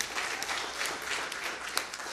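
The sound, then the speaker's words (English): Audience applause for a prize winner at a Mother's Day gathering, many hands clapping in a dense, steady patter that fills the whole short moment at a fairly soft level. “You guys want to clap for Miss Brandy?”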